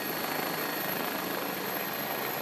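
Air ambulance helicopter at a medical emergency, a steady, loud roar of engine and rotors with a thin high whine on top, continuous throughout with no voices.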